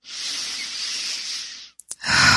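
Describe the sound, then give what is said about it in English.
A deep breath taken during a guided meditation: a long, airy hiss of steady loudness lasting about a second and a half, then a short silence and a few brief soft sounds. “So I'm going to invite you to turn within, to place your hand on your heart as I am doing, and to take a breath.”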